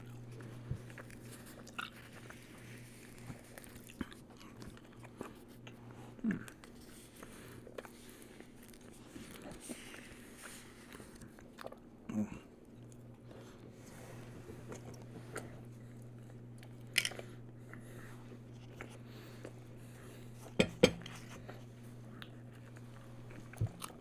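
Chewing on the last of a steak and then bread rolls, faint crunchy bites and mouth sounds scattered irregularly over a steady low hum, with a few sharper bites standing out near the end.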